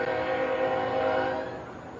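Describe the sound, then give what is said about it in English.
A train sounds a steady horn as it passes a minor-league ballpark in Montgomery, with tracks about 50 feet behind the left field wall. The tone holds level, then eases slightly softer near the end. “Train starts to chug on by and left. Real cool setup here in Montgomery. About 50 feet from the back of the left field wall to the train tracks.”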